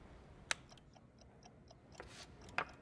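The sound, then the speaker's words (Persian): A chess clock ticking after being started, a faint, steady run of regular ticks with two sharper, louder clicks standing out, one early and one near the end. “میتونید ساعتتون رو را بندازید. میتونی ساعتم رو را بندازی.”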